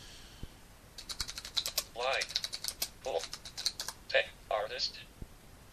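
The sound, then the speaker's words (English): Typing on a computer keyboard while entering a CD title into a catalog database: many light key clicks in quick, uneven bursts, with a voice speaking briefly between them. “Title. What's the title of our CD? So we'll type in.”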